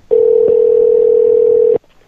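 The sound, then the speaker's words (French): A telephone line tone sounds while a number is being called: a single loud, steady, unbroken tone that holds for about one and a half seconds on its own, then cuts off abruptly. “Son numéro à Guy, je vais l'appeler. il est occupé.”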